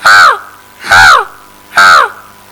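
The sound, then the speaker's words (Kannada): A crow gives three loud, harsh caws, evenly spaced with brief gaps between them. Each caw is a raspy, nasal call that arches in pitch, and the bird is heard alone. “ನಾನು ಸ್ವಲ್ಪ ಮುಂದೆ ಹೋದ ನಂತರ ಒಂದು ಕಾಗೆ”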